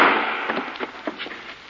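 A gunshot in a radio drama: one sharp, loud crack at the very start that decays into a few softer, scattered clicks and rattles.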